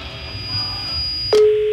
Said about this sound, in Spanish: Bueno, está sonando el teléfono de la señora que tiene los perros en la azotea, Perla Yasmín